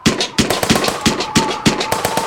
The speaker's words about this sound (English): Oh no, they're shooting at me.